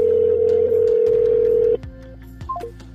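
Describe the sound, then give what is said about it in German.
Ringback tone of an unanswered telephone call to a counselling number: a steady mid-pitched tone holds for under two seconds, then cuts off, leaving faint background noise with a few small clicks. “Auch hier antwortet niemand. Auch diese Nummer habe ich heute schon eher angerufen”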